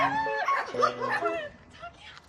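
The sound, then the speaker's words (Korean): Dog whimpers and yips from a litter of newborn puppies, high thin cries rising and falling in short bursts, fairly loud at first and then fading, with people talking over them. “산책길에 자주 마주치던 강아지가 그새 새끼를 낳았네요.”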